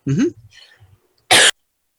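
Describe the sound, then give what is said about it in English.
A single short, dry cough bursts out sharply and loudly, following a brief murmur of voice and a moment of silence. “I got dry cough.”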